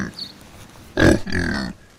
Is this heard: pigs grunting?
yes